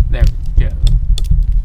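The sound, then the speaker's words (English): A pop filter is fitted back onto a microphone, producing close, handled thumps, clicks and light rattles in several bursts over a low, bumpy rumble. “This pop filter's driving me nuts. I gotta put it back on. Sorry for the sounds.”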